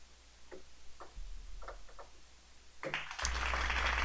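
Studio audience applause surges in suddenly near the end, a dense, loud wash of clapping that follows several seconds of near-silence broken only by a few faint clicks.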